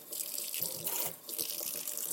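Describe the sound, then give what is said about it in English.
Water spraying from a kitchen sink sprayer that tends to stick, rinsing out the inside of a Vitamix blender container: a steady, dense hiss of water that dips briefly partway through, with no talking. “I use the sprayer, whatever that's called, the water pick in the kitchen, over the kitchen sink, which always gets stuck.”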